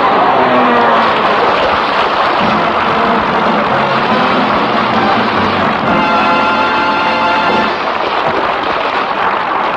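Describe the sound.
Sound effect of an airplane coming in to land: a loud, steady roaring engine drone that fills the whole stretch without pause.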